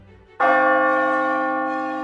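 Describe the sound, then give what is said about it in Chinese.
A single loud stroke of a clock bell striking twelve o'clock rings out after a brief quiet moment, its bright tone sustaining and slowly fading over the following seconds. “钟声敲打着十二点整”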